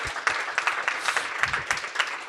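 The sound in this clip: Audience applause during a ceremony for a recently earned doctorate, a steady, dense wash of clapping hands at moderate loudness throughout, without a break.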